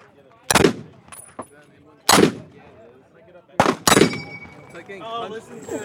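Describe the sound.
A high-end military-grade gun fires until the magazine runs out: a few loud, sharp gunshots spaced well apart, the last two close together, with faint clicks and some talk in the quieter gaps.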